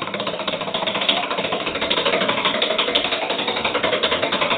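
A prize wheel spins with a dense, rapid mechanical clatter of ticks in an even, pulsing rhythm, loud and unbroken for the whole stretch.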